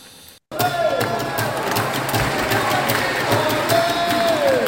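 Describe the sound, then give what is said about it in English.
Football crowd noise at Hong Kong Stadium during an AFC Champions League match between Kitchee and Bangkok United: a steady, loud roar of many voices with scattered shouts and chant-like calls. “Welcome to Hong Kong and the Hong Kong Stadium for the third game in the ACL. Kid Chi versus Bangkok United.”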